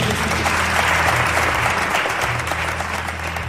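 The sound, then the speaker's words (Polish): Audience applause at the final of a nationwide Polish rhetoric contest: dense, steady clapping from a crowd, loud and continuous from start to end, fading slightly toward the close. “Wielkie brawa za 12 wspaniałych.”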